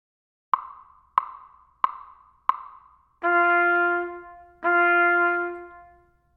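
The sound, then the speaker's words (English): Four short, evenly spaced tones of one pitch, each a sharp attack that decays quickly into silence, are followed by two longer sustained tones with a rich, steady timbre. “1D. Quarter notes followed by quarter rests sound like this.”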